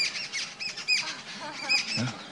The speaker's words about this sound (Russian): See, even the birds are getting excited hearing her glories.